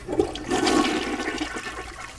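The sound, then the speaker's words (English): A toilet flushes in a cabin served by a septic system. The rushing roar of water runs through the whole clip, swelling toward the middle and easing slightly near the end, with no voices. “flush toilets. They actually have a septic system here.”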